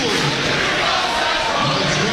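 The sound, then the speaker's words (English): Central fans in the stands chant at a school sports matchup, a dense, steady roar of many voices. The whole crowd stays loud throughout, and no single word stands out. “Now we've got Central crowd coming to life again with a "Here we go, Central."”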